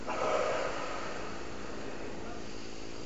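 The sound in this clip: A single deep breath is exhaled during a breathing exercise, a short breathy rush at the start that fades into a steady, quiet background hiss.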